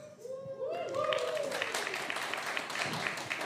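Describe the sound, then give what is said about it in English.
Audience cheering and whooping at a church service: a few rising whoops ring out early, then merge into loud, steady crowd noise that holds to the end. “Thank you for the woos that got the people going. I appreciate it.”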